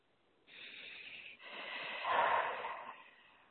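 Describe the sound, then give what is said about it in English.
A deep breath taken slowly, with two long, soft, airy phases that swell and fade in a quiet setting. “Okay, big breath.”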